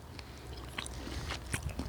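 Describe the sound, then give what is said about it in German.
Faint crunchy biting and chewing on a Jägerknacker, a German hunter's sausage, eaten outdoors. A few quiet snapping bites stand out over soft mouth noise and a low, steady background. “Und dabei essen wir einen Jägerknacker.”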